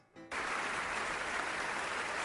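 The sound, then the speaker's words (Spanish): Audience applause during a performance of the Radetzky March: a steady, dense wash of many hands clapping that starts abruptly after a brief quiet moment and continues evenly at a moderate level. “El públic aplaudint, sabent que s'interpreta ara mateix La Marxa Radetzky.”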